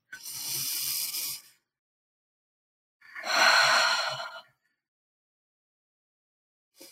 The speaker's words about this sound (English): And we're going to start by taking 3 nourishing breaths, in for 4 and out for 6.